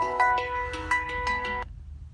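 Mobile phone ringtone for an incoming call: a quick, bright run of melodic electronic notes that rings steadily for about a second and a half, then cuts off abruptly into near silence.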